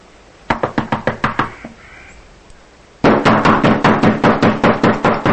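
Knocking on a door in two bursts of quick, even raps: a first run of several knocks, a short pause, then a longer, louder series of rapid knocks.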